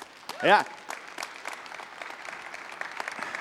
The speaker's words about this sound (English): Patience with all that clapping.